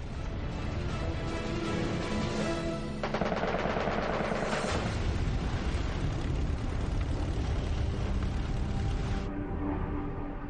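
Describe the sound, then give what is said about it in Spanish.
Fighter plane machine guns firing in a dogfight with a Japanese Zero, a dense, continuous rattle of rapid gunfire that stays loud and unbroken throughout. “colocó su avión en el mismo plano que el cero, abrió fuego con sus armas y dio en el blanco.”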